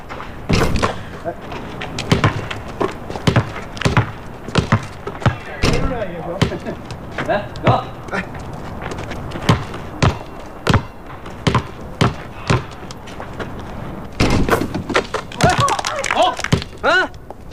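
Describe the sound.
A basketball bounces again and again with hard, irregularly spaced thuds, while people talk and call out over the play.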